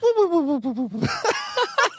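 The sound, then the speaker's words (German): A voice imitates a cartoon-style snore: a wavering hum that falls in pitch, followed by a few breathy, snorting bursts. “Am besten noch mit so einem vorgetäuschten Schnarchen, so wie du es in den Zeichentrickfilmen gelernt hast bei Tom und Jerry”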